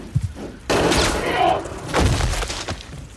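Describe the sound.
Gunfire: a sudden loud shot cracks out after a few faint thumps, then decays into a rumbling tail before a second heavy burst follows.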